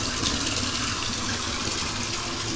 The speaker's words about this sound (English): So here we are, sitting in the bathtub, soaking my leg,